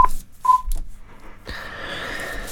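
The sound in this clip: Telephone ringing as a call comes in during a bingo game: two short, clear electronic tones of steady pitch, followed by an open line of hiss and faint noise.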